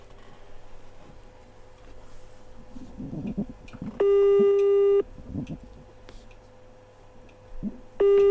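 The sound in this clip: Telephone line tones as a radio show places a call: one long, steady, loud beep, then a quiet stretch with faint rustling, then a second beep starting near the end.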